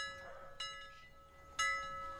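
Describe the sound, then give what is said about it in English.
Alarm bells ringing as a few faint struck strokes, each followed by a sustained, humming ring that lingers between hits. “that is the alarm bells, okay? And they're ringing”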